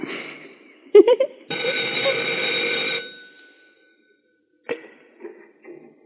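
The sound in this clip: A telephone bell rings in one sustained, bright, buzzing burst, with short knocks before it and faint, brief sounds after it.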